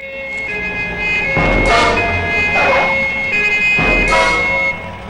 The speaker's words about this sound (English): He turns as a police car screeches to a halt.